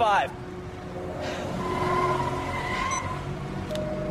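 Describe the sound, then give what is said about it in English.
A green Volvo drives off, its engine noise swelling gradually and holding steady at a faint level while a voice speaks over it. “She gets in, the car drives off. Volvo, green”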